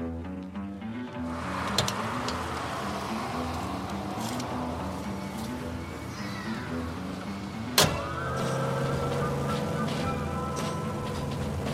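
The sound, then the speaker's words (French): A red Porsche sports car drives through city streets, its engine humming at a steady, fairly loud level, broken by a couple of sharp clicks. “À seulement 21 ans, il s'offre une Porsche rouge dans laquelle il aime parader dans les rues de Bayside.”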